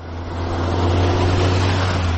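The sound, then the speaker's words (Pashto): An aid vehicle's engine drones as it travels a rough, potholed road from Baghran district toward Lashkargah. The rumble is loud, steady and continuous, with no voices. “دا د باغران ولسوالۍ ته پر غځېدلي کنډ او کپر سړک د روان هغه کومک لرونکي بایپور موټر ژغ دی چې اوس مهال مرکز لشکرګاه ښار ته د باغران ولسوالۍ څخه راورسېدلی.”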